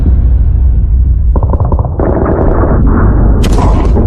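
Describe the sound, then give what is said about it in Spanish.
Gunfire sound effect for a battlefield scene under mortar and sniper fire. It is a dense, continuous roar of shots and rumbling blasts, loud throughout, with a few sharper bursts toward the end. “Doy orden de disparar a todo lo que se mueva.”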